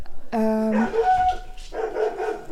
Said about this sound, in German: Das ist mein Hund. Das ist mein Hund